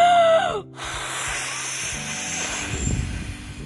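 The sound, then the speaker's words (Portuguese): A voice imitates the big bad wolf blowing the house down, a short voiced sound followed by a long, steady, breathy hiss lasting about three seconds. “O lobo mau então disse que iria soprar, assoprar, assoprar até a casa voar. Então assim ele fez.”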